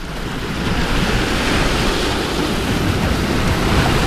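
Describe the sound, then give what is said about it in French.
Sea waves on the shore at Portici on the Gulf of Naples, a steady, dense roar of surf mixed with wind noise, even in loudness throughout and with no voices. “On est effectivement au bord de la mer, hein, évidemment. On est à Portici, pour être plus précis. C'est une petite localité du golfe de Naples”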